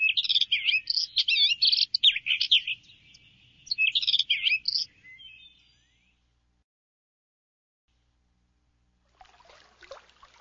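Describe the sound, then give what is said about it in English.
Birds chirping in a rapid, busy stream of high, bright tweets for about five seconds. Silence follows, then a short burst of hissing noise near the end. “Birds chirp.”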